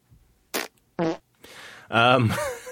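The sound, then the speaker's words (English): Fart sounds in a funhouse hallway at an amusement attraction in Panama City, Florida: a few short sputtering bursts followed by a longer, louder buzzy blast. “Was that a fart? Maybe. Did I hear a fart? Yep.”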